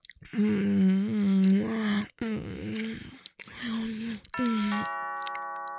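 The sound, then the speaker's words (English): A doorbell rings near the end with a sustained two-tone chime, following several seconds of moaning and breathy, whispered vocal sounds. “That was the doorbell.”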